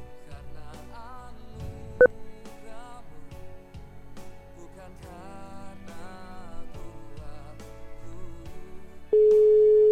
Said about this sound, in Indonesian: Ya tadi ada yang menelpon. Iya ada terputus atau belum nyambung.